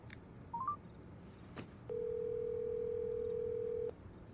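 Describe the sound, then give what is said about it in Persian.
Telephone keypad tones as a number is dialed from a business card at night. A few quick short beeps are followed by a long, steady tone on the line, quiet, over a faint regular ticking. “بلند میشه به کارتی که اون مرد داد نگاه میکنه، شماره میگیره.”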